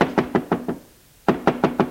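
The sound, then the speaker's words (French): Knocking on a farmhouse door: two quick, evenly spaced runs of several sharp raps separated by a short silent pause, alone without talk. “Ils sortent de voiture et frappent à la porte de la ferme.”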